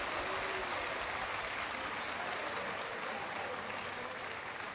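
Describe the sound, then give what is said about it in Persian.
Audience clapping hands in applause: a dense, steady wash of claps that holds an even loudness for the whole stretch, with no pauses or build. “بزن دست بزن دست بزن ماشاءالله.”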